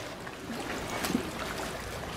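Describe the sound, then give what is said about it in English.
Generic ship sounds with a paddling quality: soft, continuous water swishing and lapping, faint and steady, with one slightly stronger splash near the middle and no voices. “Those are just some generic ship sounds from the internet.”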